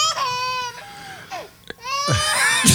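A teething baby girl cries in high, wavering wails with strong harmonics. A few sobbing bursts are split by a brief quieter dip in the middle, then the crying swells loud again at the end.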